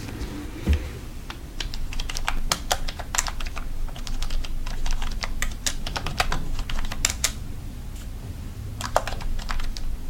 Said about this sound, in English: The best is when they type it with long painted nails. Yeah. So long they can't even type properly.